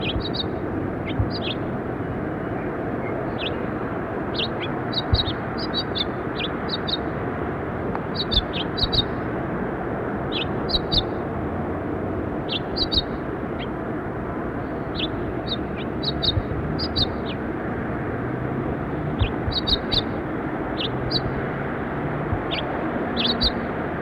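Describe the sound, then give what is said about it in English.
Pulse finches calling on a ledge give many short, high chirps in loose clusters over a steady, low background rumble and hiss. “Some pulse finches here, right on the ledge. Pulse finch.”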